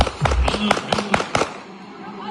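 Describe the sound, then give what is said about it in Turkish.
Gunshots fired into the air at a wedding in Şanlıurfa, heard as a quick burst of several sharp, loud cracks packed into about a second over a busy, noisy background. “Düğüne giden bir kişi oyun esnasında silahına davrandı. Havaya doğru bir anda ateş etmeye başladı.”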